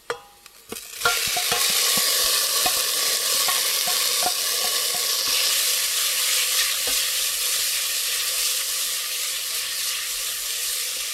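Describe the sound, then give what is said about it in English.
Sautéed mushrooms sizzling in a pan on medium heat for a miso mushroom pasta, with a steady bright hiss and scattered sharp ticks of a utensil stirring against the pan throughout. “Okay, you give that 30 seconds to a minute, and then you add in your sauteed mushrooms.”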